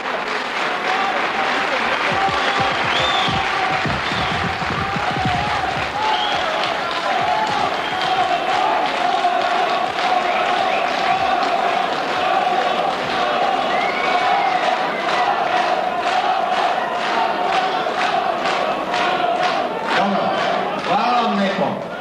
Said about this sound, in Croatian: Kako vidim, molim vas, ovdje aplauz, ovaj aplauz.